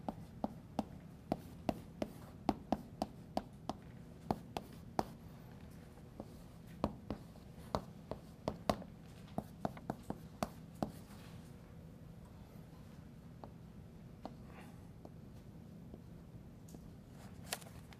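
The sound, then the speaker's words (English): Writing on a board during a lecture on gene expression produces many sharp taps and scrapes at an irregular pace. They cluster thickly early on and thin out later, over a steady low background hum. “You can ignore my writing.”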